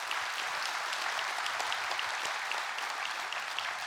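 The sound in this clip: Steady applause from a church audience at a Pentecost Sunday service: dense, even clapping that stays loud and unbroken for the whole four seconds, with no other voice standing out.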